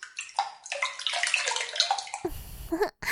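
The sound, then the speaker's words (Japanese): Bathwater sloshing and spilling over the tub's rim as two people get in together: continuous wet splashing and lapping that turns into a deeper, churning slosh near the end, with a brief gap just before it stops. “二人で入るとさすがにお湯あふれちゃいますね。”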